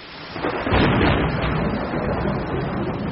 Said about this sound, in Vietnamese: Một tiếng sấm gào lên ở chân trời phía đông như lời khẳng định của em Lý